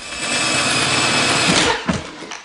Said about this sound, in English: Inside, the fake SWAT team drill at a safe.